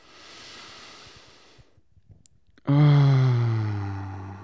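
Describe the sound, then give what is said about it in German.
A deep breath: a soft, quiet inhale fades into a short pause, then a loud voiced sigh bursts out on the exhale, its tone sliding slightly lower as it trails off. “Lass uns erstmal einen tiefen Atemzug nehmen.”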